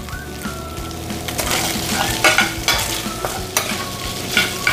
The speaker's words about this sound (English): so it won't take that long to cook it up, like so. So we'll let that get going, make sure my fire's still working here.